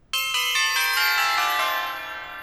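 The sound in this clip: Bright bell-like correct-answer chime from a game, a quick run of overlapping ringing notes that sustain and slowly fade, heard alone.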